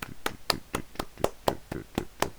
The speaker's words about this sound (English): Okay, clap for Solin.